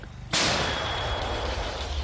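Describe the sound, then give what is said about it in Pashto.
An Italian-made artillery gun of a Ukrainian unit fires in the Donbas region of eastern Ukraine: one sudden sharp blast breaks a low hum and spreads into a sustained, loud rumbling roar that slowly fades. “این واحد توپچی در منطقه دنباس در شرق اوکراین با استفاده از توپ ساخت ایتالیا در برابر نظامیان روسیه می جنگند”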